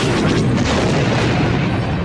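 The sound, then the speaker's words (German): A heavy explosion erupts as a mining mole is struck by a shot during a space battle, a loud, sustained roaring boom that holds its level for about two seconds. “Der Minenmaulwurf ist Geschichte. Guter Schuss, Wedge.”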